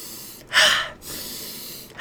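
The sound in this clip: Forceful breathing in an activating breathwork exercise: one loud, quick, hissing breath, then a softer and longer breath, with the next breath just beginning at the end.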